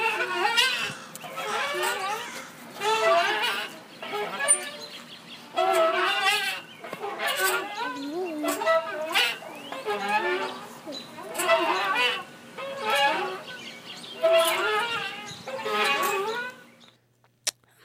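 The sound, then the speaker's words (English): A creaky, rusty old playground swing that needs oil is swung back and forth, giving many high, whining squeaks in a regular rhythm, each long creak followed by a short pause, until it stops at the end. “It was a swing. All right. Yeah, I got the playground vibe. A very rusty old swing that needs some oil.”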